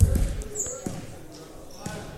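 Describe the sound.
Basketball dribbled on a court during a game between ABS and Waterloo: a few sharp, low bounces spread out under continuous play-by-play talk.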